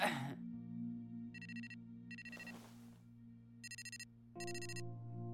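A phone ringtone chirps in four short, high-pitched electronic bursts arranged in two pairs, fairly faint over a low, steady hum.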